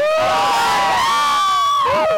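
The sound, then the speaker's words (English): An audience cheers, whoops and hollers in a loud, continuous burst of overlapping voices. “are we all ready for a huge round of applause? Yeah. Yes. Hoot and holler.”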